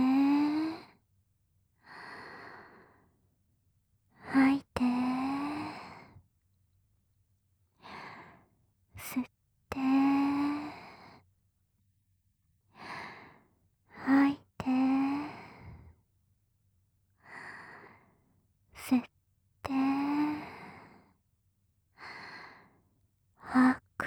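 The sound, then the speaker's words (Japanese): Slow deep breaths in and out, many in a steady cycle, each exhale a breathy, partly voiced sigh, with short quiet gaps between breaths. “呼吸してみよっか。はーい、吸っ”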